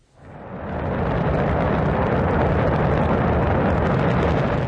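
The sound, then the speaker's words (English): Roar of China's Shenzhou 23 crewed rocket blasting off from its launch center in Inner Mongolia. The sound swells within a second from quiet into a loud, dense rumble that then holds steady and unbroken. “That's the sound of China's Shenzhou 23 rocket blasting off on Sunday from the Jinguan Launch Center in Inner Mongolia.”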